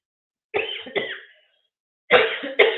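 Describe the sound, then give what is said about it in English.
A person coughing: four harsh, loud bursts in two pairs, separated by a short silent gap, with no talk. “I'm gonna go take care of this cough first”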